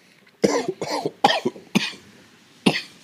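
Harsh coughing from someone who inhaled smoke while trying to blow smoke rings, coming as a ragged run of several loud, rasping bursts with short gaps, with no talking.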